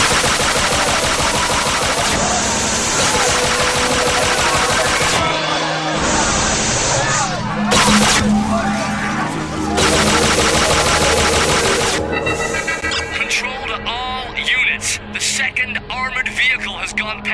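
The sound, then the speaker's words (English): Machine gun fire in an animated action scene with an armored vehicle and paramilitary police: sustained, dense bursts of rapid repeated shots, loud throughout and mixed with other clattering effects. “Shoot to kill.”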